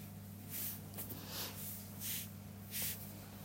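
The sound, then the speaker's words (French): Soft nasal breathing during a yoga breathing exercise, inhaling through the right nostril and exhaling through both. A few faint, airy hisses and snort-like rushes of breath come in an unhurried rhythm over low background hum. “inspire droite, expire deux narines.”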